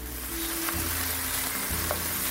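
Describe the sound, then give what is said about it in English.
Broken-down tomatoes sizzle and fry in a pan for an Indian dish while being stirred, a steady crackling hiss running throughout with a low hum beneath it. “Oh yeah, I've been stirring this whole time because you do want to move them around a little bit. And the tomatoes are definitely broken down.”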